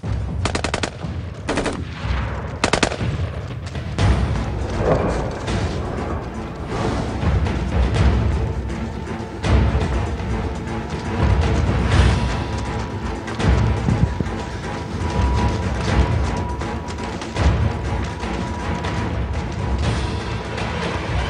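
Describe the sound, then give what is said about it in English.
Rapid machine-gun fire and single gunshots from a shooting video game crackle in loud, dense bursts throughout, with only brief gaps between volleys. “If you're going to start shooting aimlessly, at least get a good shot first.”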